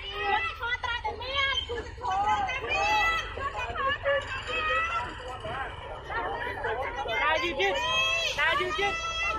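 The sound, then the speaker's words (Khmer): Many voices from a crowd of marchers on a walking march about social morality by the Cambodian Independent Teachers' Association, starting at the Lok Yeay Penh statue near Wat Phnom in Phnom Penh, chatter and call out in a dense, continuous babble. “នេះជាសម្ដែងដែលលន់លឺចេញពីធម្មយាត្រាថ្មើរជើងស្ដីពីសិលធម៌សង្គមរបស់សមាគមគ្រូបង្រៀនកម្ពុជាឯករាជ្យដែលបានចាប់ផ្ដើមចេញដំណើរនៅថ្ងៃពុធនេះពីរូបសំណាក់លោកយាយពេញក្បែរវត្តភ្នំ”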